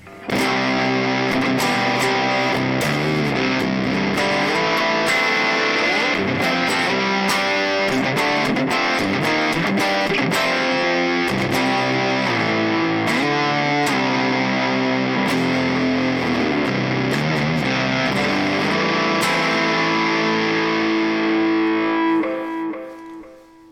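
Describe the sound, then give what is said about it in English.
Electric guitar fuzz from a silicon Fuzz Face pedal played into an Eminence Swamp Thang and DV77 combo cab: thick, saturated chords and riffs ring loud and unbroken before fading out at the end. “So the first one, silicone fuzz face, going to be into the Eminence Swamp Thang and DV77 combo cab. And here we go.”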